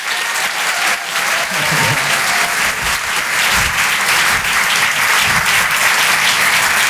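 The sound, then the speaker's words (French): Audience applause at a comedy club, a steady, loud wash of many hands clapping that continues without a break for the whole stretch. “Maximum de bruit, s'il vous plaît, pour Marion Mésadorian.”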